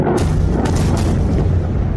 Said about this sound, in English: jets taking off from one of its aircraft carriers already in the Red Sea